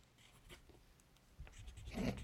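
Soft scratchy strokes of someone drawing, faint and irregular, growing slightly busier and fuller toward the end with a low rumble underneath.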